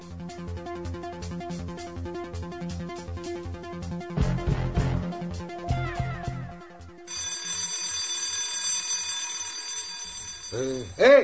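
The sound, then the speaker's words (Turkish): A mine's shift whistle blows as a steady, high, sustained tone lasting several seconds, following a busy stretch of other rhythmic sounds. “Birinci düdük çaldı. Kalksana be. Düdüğü duymadın mı dostum?”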